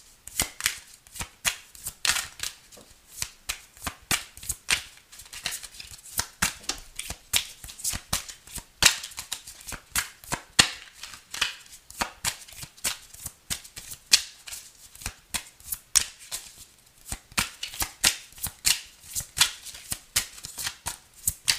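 Tarot cards being shuffled during a love reading: many crisp, rapid riffling clicks in uneven bursts that carry on for the whole stretch, heard alone without talk.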